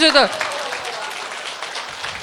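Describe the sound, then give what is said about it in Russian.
Audience applause after people are asked to stand and clap harder: a brief shouted voice at the start, then a dense, loud, steady clatter of many hands that holds even to the end. “А я вас всех попрошу начать хлопать. Начните, пожалуйста, хлопать. А теперь вставайте и хлопайте все яростнее. Продолжайте. И с криками «Браво!»”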